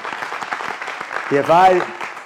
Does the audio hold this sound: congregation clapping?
yes